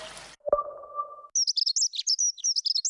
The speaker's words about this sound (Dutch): Word je ook zo blij van de eerste hegemus?